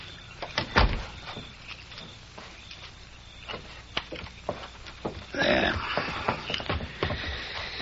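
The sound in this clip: Door sounds as an office door is shut and locked: a heavy thud early on, then a scattering of light clicks, knocks and rattles, with a louder scraping burst later.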